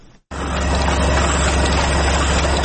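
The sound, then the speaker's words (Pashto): Printing machine in a print shop in Afghanistan running while it prints the pages of a small book: a loud, steady mechanical drone with a low hum underneath, continuous after a short quiet start. “دا چاپ دغه ماشین کې پراته کاغذونه د یو واړه کتاب دی”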